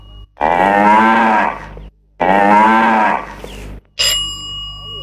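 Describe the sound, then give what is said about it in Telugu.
Two long, low cow moos, each well over a second and loud, follow one after the other. A short, bright ringing chime comes right after the second moo. “ఇది ఆవు అరుపు.”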